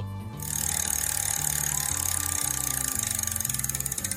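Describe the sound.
A game show prize wheel spins with a steady, even stream of rapid clicks over a low rumbling bed, starting abruptly and holding its loudness throughout.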